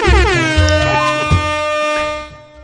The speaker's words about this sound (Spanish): Ponle bocinas a Dani.